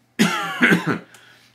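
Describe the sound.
A short, rough cough or throat-clearing comes from a person who has been sick for months and has a cough drop in. It is one harsh voiced burst with a couple of pulses that fades quickly, heard alone.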